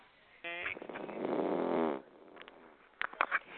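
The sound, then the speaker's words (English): A person snoring: one long, rasping snore of about a second and a half, fairly loud, followed by a few brief clicks and bumps. “Someone is snoring.”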